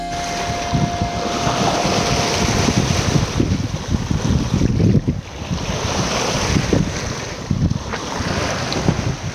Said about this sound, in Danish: det her det er lyden af bølger ude for de kanariske øer